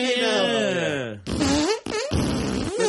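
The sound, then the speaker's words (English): A person blows on their wrist to make a fart noise while trying to carry a tune. A long buzzing tone slides steadily down in pitch, then shorter wavering buzzes follow. “It's hard to stay in tune when you fart on your wrist.”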